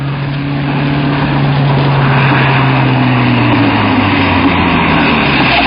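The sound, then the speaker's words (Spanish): A taxi's engine drones steadily and loudly on an asphalt road throughout, its low engine tones sliding slightly downward in pitch. “Un coche se acerca.”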